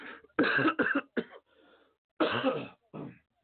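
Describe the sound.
Wet coughing and throat clearing from cat allergies as phlegm comes up: a rapid cluster of harsh hacking coughs, a faint rasp, then two more coughs after a short pause.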